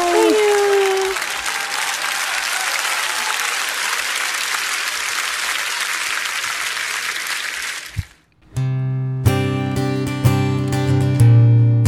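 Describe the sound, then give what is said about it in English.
An audience applauds a performer at a live show with loud, dense, steady clapping for about eight seconds. After a brief silence, music starts. “give it up once again for Carla Holbrook”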